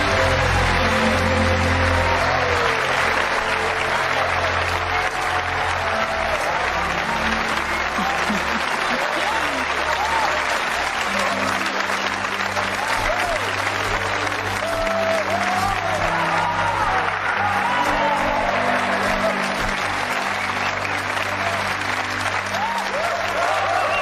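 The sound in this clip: Dense, steady applause greets a chess victory, a sustained wash of clapping that runs unbroken for about twenty-four seconds at an even loudness.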